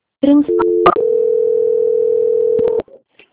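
Telephone line tones play while a call is transferred: a few short stepped beeps lead into one long, steady, loud tone, followed by brief faint sounds.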